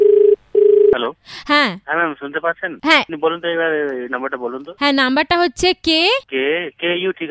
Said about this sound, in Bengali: আমি আবার ফোন করছি আপনাকে।